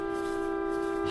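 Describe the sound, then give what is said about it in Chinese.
A car horn honking in one sustained blast, a steady held tone rich in harmonics that lasts throughout, fairly quiet and alone. “找谁也不能这么摁喇叭呀。”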